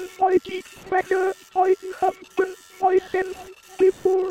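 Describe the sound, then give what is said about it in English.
Prayer machines reciting prayers in toneless, metallic synthetic voices while printing them out, heard as many short, clipped bursts in a steady, repetitive rhythm, with mechanical clicking and ratcheting mixed into the speech. “The machines talk as they print out their prayers.”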